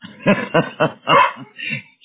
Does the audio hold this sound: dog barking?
yes